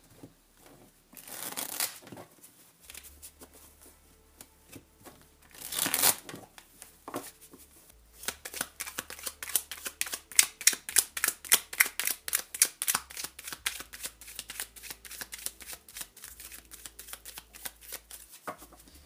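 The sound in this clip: Tarot cards are shuffled by hand. Two louder riffling bursts come early, then a long run of quick, rhythmic card flicks and soft slaps continues at moderate volume.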